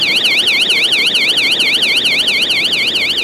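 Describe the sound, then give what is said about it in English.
An emergency door alarm at a subway exit wails loudly, a rapid warbling electronic tone sweeping up and down in a steady, fast rhythm with no pauses. “That's the alarm on the emergency door at the subway exit.”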